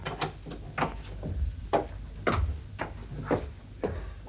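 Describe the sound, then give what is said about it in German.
A window being closed, heard as a busy run of wooden and metallic clacks, knocks and creaks from its frame and latch, many short sharp hits spread irregularly over a few seconds, fairly faint and with no talk. “Bitte schließen Sie das Fenster”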